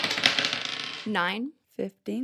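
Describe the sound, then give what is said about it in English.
A d20 die is rolled: a dense rattling clatter for about a second, followed by people talking. “Could you all make a perception check, please? Just a d20,”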